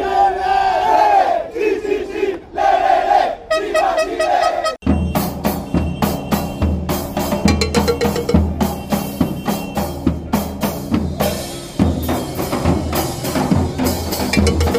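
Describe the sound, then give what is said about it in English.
Chile football fans chanting at a World Cup match in Rio: massed voices sing loudly at first, then break into a dense, pulsing roar with rhythmic beats that carries on to the end. “Yes, we were together at that game in Rio. It was unforgettable. This is the sound of those Chile fans.”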